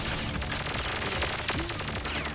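Gunfire in a Nintendo 64 video game, a dense, continuous burst of rapid shots blending into a loud wash of noise with no talk.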